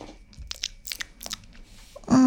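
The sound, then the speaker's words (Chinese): Cake being eaten, with a few soft bites and chewing sounds and some crisp crunchy bursts spaced irregularly, then a sudden loud sound at the very end. “我还第一次吃他家蛋糕呢，”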